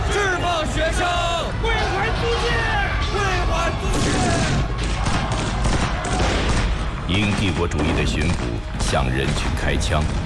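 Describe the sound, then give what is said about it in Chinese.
Gunfire as police shoot into a crowd of protesting students and citizens in 1925 Shanghai: a dense, loud fusillade of shots mixed with crowd noise and shouting voices throughout. “因帝国主义的巡捕向人群开枪，造成了多人死伤。”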